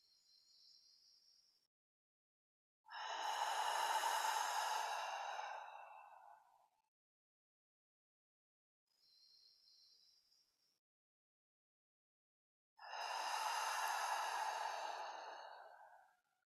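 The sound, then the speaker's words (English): Deep breathing: a short, faint inhale through the nose followed by a long, loud, airy exhale through the mouth, and the pattern repeats once more with quiet pauses between breaths. “let's just take three deep breaths together. In through the nose, out through the mouth.”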